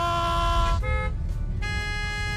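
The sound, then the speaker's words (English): Car horns blare in loud, sustained overlapping honks at a hesitant learner driver on a street. The honking breaks off briefly partway through and then resumes over a low traffic rumble. “Why is everyone honking at us?”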